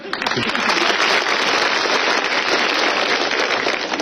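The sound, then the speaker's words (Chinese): Applause from a theatre audience, a dense and steady clatter of many hands clapping that stays loud and even for the whole stretch, with no talk over it. “想不到还真有人鼓掌，这就算开张大吉了。”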